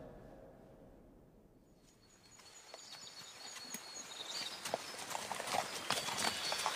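Horses walk along under riders, their hooves clip-clopping in many steady, irregular beats that grow gradually louder, with no talking.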